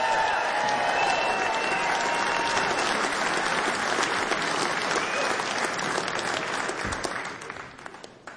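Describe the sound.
Audience applause at a live music show after a singer's set: dense, continuous clapping from a crowd that holds steady and loud, then thins and tapers off in the final second.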